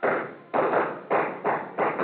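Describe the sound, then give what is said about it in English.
Gunshots fired into a ceiling during a fist fight: five harsh, loud bursts in a quick, slightly uneven run, each with a short ringing decay. “jammed my trigger finger in over his and pumped till all the shots went into the ceiling.”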